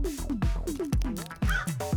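Crow cawing: several harsh, loud caws, each sliding downward in pitch, repeated in an uneven rhythm with no voices.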